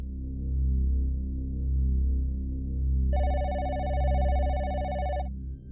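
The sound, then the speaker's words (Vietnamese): A telephone rings loudly, one shrill sustained ringing burst of about two seconds that starts partway through, over a low, steady droning background. “tiếng điện thoại treo lên inh ỏi, kéo nó ra khỏi giấc ngủ say.”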